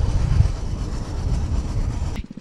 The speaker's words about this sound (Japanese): 素晴らしい道を走ってます。まあ、元備後線ということでね列車も通ってたんですが列車とは一味も二味も違うトロッコ、すごく楽しみですね。